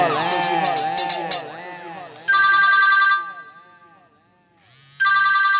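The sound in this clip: A telephone rings in two loud, bright electronic bursts, the first lasting under a second and the second starting near the end and cut off. Music plays before the first ring and fades out before the second.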